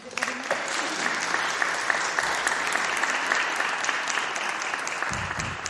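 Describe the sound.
Sustained audience applause welcoming a speaker to the stage, a dense, even wash of many hands clapping that holds steady for the whole stretch without a clear rise or fall.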